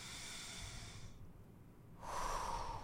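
A deep breath during a guided breathing exercise: a quiet, airy rush of breath, a brief pause, then a fuller breath again, with no talk.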